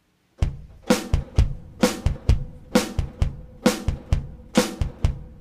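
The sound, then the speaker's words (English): A steady straight-ahead rock drum beat plays alone, with deep kick thumps and sharp snare backbeats under splashy cymbal hits. Many even strokes repeat at a moderate tempo. “So, like, a rock beat, a straight-ahead rock beat might sound like this.”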